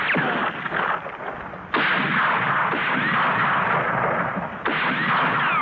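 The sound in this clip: Sustained heavy gunfire as several men shoot after a fleeing man at night, a dense crackling roar that stays loud throughout, with two sharp fresh bursts breaking in.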